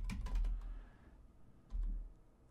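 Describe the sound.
Keys clatter on a computer keyboard as a name is typed into a search box: a quick burst of keystrokes, a pause, then a second short cluster, all faint.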